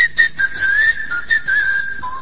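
A person whistles as a tongue test: a steady, high, clear tone with slight pitch wobbles, dropping to a lower note at the end, heard alone.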